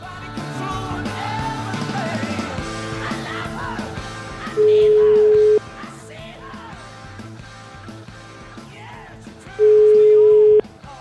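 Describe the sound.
An outgoing telephone call rings through: two steady, low ringback tones, each about a second long and separated by a pause of several seconds, follow a stretch of busy, overlapping voices.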